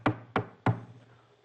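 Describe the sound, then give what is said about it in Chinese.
Three sharp knocks from a door-knocker ring striking the closed front gate of a residence, evenly spaced and each dying away quickly, with no voices. “张超、刘备两个人提了这大礼盒上台阶，来到府门这儿，叩打门环，”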